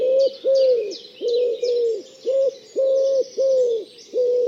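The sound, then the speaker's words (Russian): Wood pigeon cooing in a steady series of low, soft, hooting phrases with short gaps between them, while faint high chirps from other birds run above. “они назвали вяхеря кукундрик, ну, потому что он такие делает звуки, похожие на куку.”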